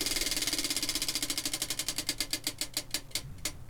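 A game wheel spun during a party word game, its pointer ticking in a rapid, even rattle that gradually slows, the many clicks spreading farther apart as the wheel winds down.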